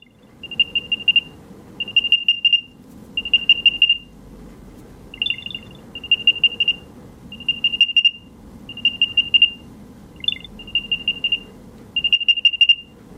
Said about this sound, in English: First, with the Apple AirTag, you have the Find My network. This is my AirTag and I can play the sound.